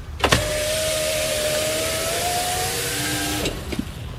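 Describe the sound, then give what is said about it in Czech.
A car's electric window lowered: a click, then a steady mid-pitched motor whine lasting about three seconds, ending in another click and a short rattle, under a faint background hum. “Co se sklápí okýnko v autě?”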